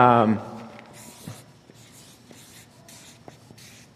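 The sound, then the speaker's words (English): Names being written out by hand, heard as a run of soft, scratchy pen strokes in irregular short bursts after a brief voice at the very start. “I want to write the names down of the seven people from last week,”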